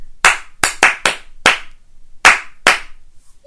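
Seven hand claps tapping a rhythm back in a children's clapping game: crisp, loud and spaced in uneven groups, with brief silences between them.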